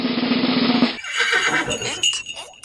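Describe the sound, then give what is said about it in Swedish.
A drum roll and a fanfare jingle: a dense, sustained roll for about a second, then a short, bright run of tonal notes with no voices. “kör den där trumvirveln och fanfaren. Mm, den kommer där typ.”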